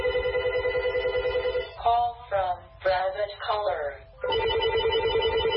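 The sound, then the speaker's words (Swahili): A telephone rings with a steady electronic trill. The ringing breaks off for a short stretch of voice, then starts again. “Dakika chache tu baada ya tangazo hilo, msikilizaji, simu zilianza kulia si haba.”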